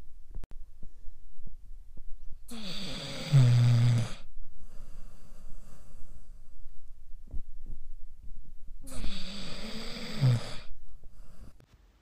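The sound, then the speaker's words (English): A sleeping puppy snoring: two soft, nasal snores, each about a second and a half long, spaced several seconds apart with low quiet between them. “And when you hear little puppy snores, maybe you'll watch their bellies move with their breath. Just like this.”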